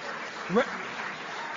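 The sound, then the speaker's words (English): Applause for a sales award at a business awards ceremony: a soft, even patter of clapping throughout, broken by one brief vocal yelp near the middle. “Representatives from Boeing couldn't be with us tonight, but you wouldn't know it from that applause.”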